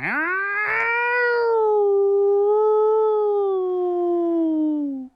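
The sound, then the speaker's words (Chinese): A single long, mournful wolf howl: a loud tonal cry that rises quickly at the start, then holds a steady note that sinks slowly in pitch over about five seconds, heard alone. “一声凄凉的狼叫，”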